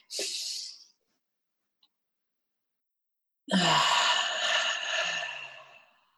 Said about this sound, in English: And okay, so let's inhale, everybody.